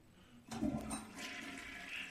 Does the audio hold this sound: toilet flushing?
yes